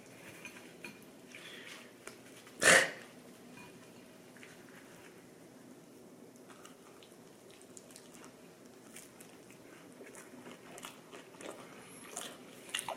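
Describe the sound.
Shrimp and rice, eaten like a taco, give one crisp, loud bite early on. Faint, soft chewing and small clicks follow at a low level.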